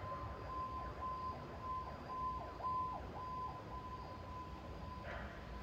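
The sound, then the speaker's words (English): A siren from a nearby firehouse: a steady, faint wailing tone with repeated sweeping rises and falls over a low rumble. No voices. “sorry about the siren.”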